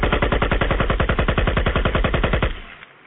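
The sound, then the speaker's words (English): A gunfire sound effect set off on the radio: a rapid, loud burst of many evenly spaced automatic shots that runs for over two seconds, then stops and leaves a fading echo. “My hand made a mistake and hit the trigger. I'm sorry. If anybody got shot, I apologize now.”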